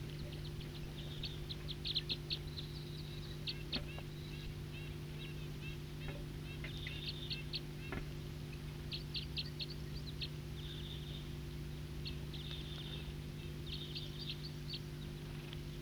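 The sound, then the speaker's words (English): Wild birds singing, faint high chirps and short trills scattered throughout over a steady low hum. “Wild birds.”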